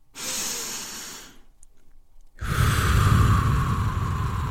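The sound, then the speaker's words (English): One deep meditation breath: two breathy rushes of air separated by a silent pause, the second longer and louder than the first, with no talking. “Do one with me now. Okay, we just meditated and we did breath work at the same time.”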